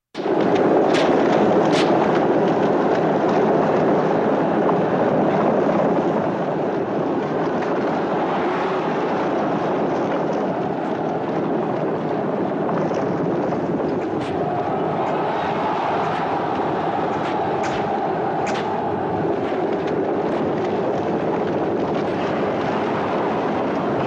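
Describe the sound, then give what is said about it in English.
A film chariot race in which one chariot has blades on its wheel spokes produces a dense, steady rumbling roar with scattered sharp cracks. It is loudest in the first few seconds, then continues evenly without voices. “is in a chariot race with Masala, who is his kind of lifelong former brother figure, but now enemy. And Masala is trying to kill him. He's got blades on the spokes of his wheels. So here's what this looked like.”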